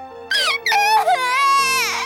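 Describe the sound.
A person cries in loud, high-pitched wailing sobs, two tearful bursts of rising and falling voice with a short catch of breath between them.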